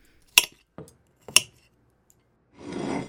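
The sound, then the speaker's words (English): Plates being switched around on a dining table: a few sharp clinks and soft knocks of crockery, followed by a longer, rough scraping slide at the end, with no talking. “If we keep switching plates when she has her back turned, I can eat all of it and make it look like you're eating yours.”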